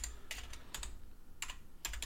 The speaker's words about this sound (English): I'll put that in. I'll type for you, Robbie.